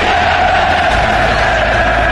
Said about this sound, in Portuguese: O grito da torcida.